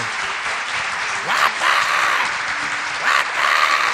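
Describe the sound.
A studio audience applauds at a television show in thick, continuous clapping that swells twice, while voices talk over it.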